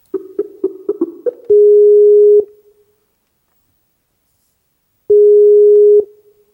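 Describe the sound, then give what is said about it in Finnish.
A Skype call connects to Damascus, Syria: a quick series of short beeps, then two long, steady ringing tones separated by a few seconds of silence. “Saan Skype-yhteyden Syyrian pääkaupunkiin Damaskokseen.”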